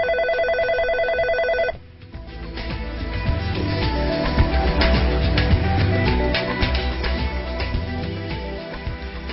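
A telephone ring for an incoming call opens with one steady electronic tone of under two seconds. A loud, dense mix of sound follows and runs to the end.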